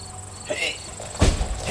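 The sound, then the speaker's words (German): A car boot being opened on a Rolls-Royce outside a house: a soft clunk, then a heavier thud and a further muffled knock over low background noise. “Morten öffnet den Kofferraum.”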